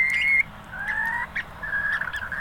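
Shrill call of a bird, piercing whistled notes repeated a few times in short bursts with brief gaps, clear and alone.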